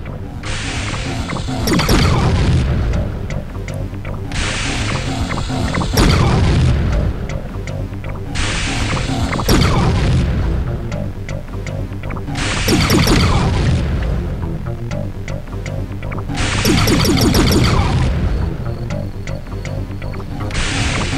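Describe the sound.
A ship in a video game crashes into trees: a few heavy, booming crash bursts recur at intervals over a steady, dense game soundscape, with no voices.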